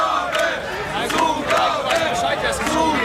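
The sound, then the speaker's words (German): A concert crowd chants loudly for an encore, voices swelling in a steady rhythmic pulse roughly twice a second, dense and continuous. “Okay, es wird eine Zugabe gefordert. Eine Zugabe, wie sieht's aus?”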